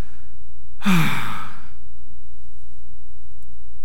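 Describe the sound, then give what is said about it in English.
A voice imitates a groan with a single breathy, sighing exhalation lasting about a second, low and falling away. Silence follows. “Groaning sounds like this.”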